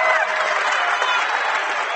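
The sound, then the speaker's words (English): Rockets basketball fans cheer in an arena during a game, a steady, loud crowd roar mixed with clapping that holds at an even level for the whole moment. “Rocket fans behind us cheering.”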